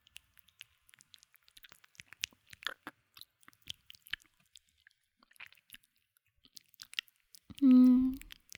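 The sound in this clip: Wet licking and mouth sounds: many soft, small smacks and clicks in an irregular patter, ending with a brief louder voiced hum.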